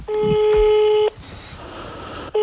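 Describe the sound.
Ringback tone of a telephone call ringing out unanswered: a steady mid-pitched tone lasting about a second, a gap, then the next tone beginning.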